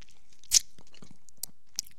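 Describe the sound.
Crunchy chewing of food by someone trying to swallow, with one louder crisp crunch followed by two smaller, sharp bites, all fairly faint and with no talking.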